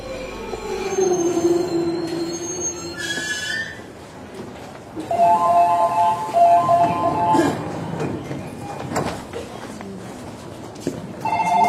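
An electric train arrives at a station, its wheels squealing in long, high, steady tones over a continuous rumble of rolling stock and brakes, fairly loud throughout.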